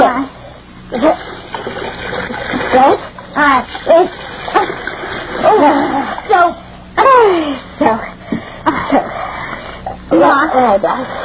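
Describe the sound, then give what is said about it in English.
Bathwater splashes while someone is rinsed in a bath, coming in intermittent bursts of sloshing and splatter between and beneath voices talking. “Bend, darling. Bend now. Let me rinse you.”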